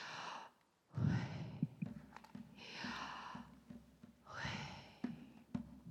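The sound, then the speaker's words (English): Breathy sighs of the divine name Yahweh, spoken as breath rather than voiced: a few long, soft, airy rushes of air separated by short pauses, with no spoken words. “the Jewish people find the name of Yahweh to be so holy that they can't even speak it. And so they breathe it instead of speaking it. So it sounds like this.”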